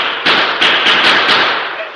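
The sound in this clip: Gunfire from several men shooting from cover at a small group of Apaches coming over a rise: a quick run of sharp, loud cracks over a continuous hissy background.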